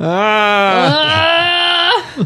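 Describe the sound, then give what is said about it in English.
A goat's loud screaming bleat, one long harmonic cry of about two seconds with a wavering, strained pitch, followed by a short second cry at the end. “As Jenny searches YouTube, because she must have the screaming goats. Must have. Sheep, whatever they are. That one was a sheep. It's the goats that go,”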